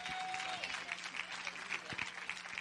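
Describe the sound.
Audience applause welcomes a speaker at a gathering in Woodward, Oklahoma: many hands clap in a dense, continuous patter, fairly faint and steady throughout.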